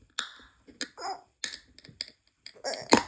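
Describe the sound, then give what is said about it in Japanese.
A drink can's stiff, hard-to-open pull tab is worked at, giving a few quiet clicks and scrapes. A sharp, loud snapping crack near the end is the tab opening. “缶のプルトグ開けづらい、開けにくい。開け、お、せーの、”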